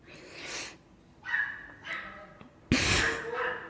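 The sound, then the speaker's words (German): A dog yelps outside in a few strained, high bursts of varying length, ending with a louder, harsher outcry. “Was ist da jemand auf einen Hund getreten?”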